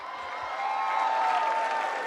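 Audience applause for a singer at a live show in Malta, a dense wash of clapping that swells after a moment and holds steady and full to the end.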